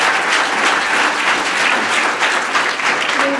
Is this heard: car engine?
no